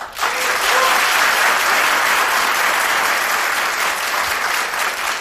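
A studio audience gives warm, continuous applause with many hands clapping in a dense, even roar. It starts abruptly, holds steady for about five seconds and eases slightly at the end.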